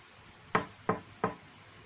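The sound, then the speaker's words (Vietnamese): Three evenly spaced knocks on a room door, crisp and moderately loud, with nothing else around them. “Có tiếng gõ cửa phòng rồi, Hàng Long Phi”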